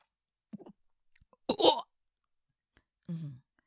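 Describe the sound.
Burps forced out while trying to voice a vowel: a weak croaky first burst, a louder and longer one in the middle, then a third, with quiet gaps between them.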